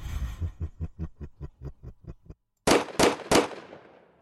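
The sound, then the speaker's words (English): Gunfire starts as a quick, even series of about ten muffled low pops. After a brief silence come three loud, sharp shots in quick succession, each leaving a fading tail. “Damn it! Stop shooting!”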